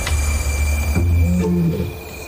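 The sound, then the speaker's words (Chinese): A lioness roar played back during a field playback test with lion cubs, pitched higher than a male's: a deep, drawn-out moaning call rising out of steady background hiss, fairly loud, with no talking. “母狮的吼声比雄狮的音调更高。”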